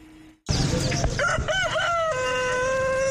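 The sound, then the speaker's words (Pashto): A rooster crows loudly at a bird and pet market on College Road stocked with chickens, colourful birds, dogs and pigeons. Its long call wavers in pitch over constant background clamour. “د پندای خار کالج روډ دا بازار د رنگارنګ مرغو، چرګانو، سپو او پکورونو کې د پالونکو ځناورو ډک دی.”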